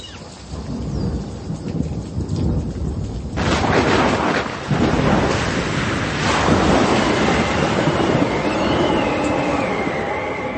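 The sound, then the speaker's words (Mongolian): A fierce storm lashes a boat with howling wind and pounding waves, a loud, continuous roar of rushing water and wind that surges even heavier after a few seconds and stays intense to the end. “Гэнэт ширүүн салих басж давалгаа онгоцны цохлон онгоцонд ус дүүрмөр болов.”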